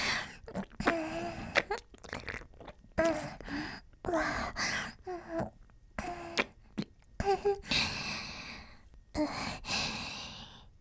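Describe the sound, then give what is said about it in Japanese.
Soft, wet kissing smacks repeat many times in an irregular rhythm, mixed with breathy sighs and quick intakes of breath. Nobody talks. “もっとキスしよう。”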